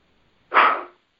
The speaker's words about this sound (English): And you can hear it. It's a very low snort. It's a single snort.